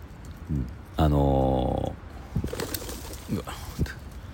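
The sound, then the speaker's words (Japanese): Pigeons cooing, a crowd of them gathered under Tokyo Tower. One loud, drawn-out coo with a rich, buzzy tone stands out among outdoor noise, shorter low calls and some faint talk. “ちょっと鳩がいっぱい来ましたね。”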